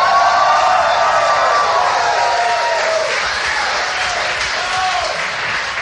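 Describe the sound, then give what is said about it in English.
A live audience at the People's Improv Theater in New York applauds and cheers, a dense, loud, steady wash of clapping with crowd voices that eases off slightly toward the end. “we're coming to you live from the People's Improv Theater in New York, New York. New York, let them hear you.”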